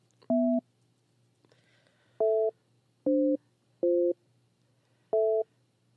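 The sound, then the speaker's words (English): Telephone busy signal heard after a number is dialed: five short, even-pitched tone bursts, each steady and clear, at slightly irregular intervals over a faint low hum, with no talking. “I just dialed that number, dude. I'm going to dial it again.”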